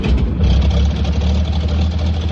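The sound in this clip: A locomotive engine of a new design running on a railway: a loud, constant low rumble with a dense, even hum over it, holding steady with no pauses throughout.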